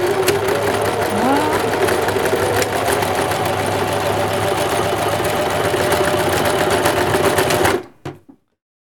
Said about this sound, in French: Donc, petite couture. Rapidos, hein. On fait une petite marche arrière pour bien que.